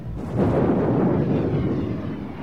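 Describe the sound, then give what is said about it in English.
An explosion as the Batmobile blows up after its ignition was tampered with: a deep, loud roaring blast that swells quickly and rumbles on steadily for a couple of seconds, with no voices. “Someone has tampered with the Batmobile's ignition. This baby is about to explode!”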